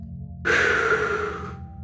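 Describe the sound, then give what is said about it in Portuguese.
A long exhale through the mouth during a guided breathing exercise: one soft, breathy rush of air lasting about a second, heard alone over a faint low hum. “E ao soltar o ar, você pode soltar o ar agora pela boca”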